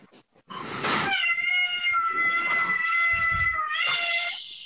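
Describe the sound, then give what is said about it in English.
A cat meows for attention in one long, loud, drawn-out yowl. The tone stays strained and whining and fades at the end, with no talk over it. “that cat is not having a good time. That cat wants attention.”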